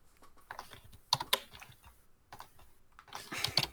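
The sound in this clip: Rapid typing on a computer keyboard to pull up a web page, with uneven bursts of keystrokes and a few sharper, louder clicks standing out, heard alone without talk.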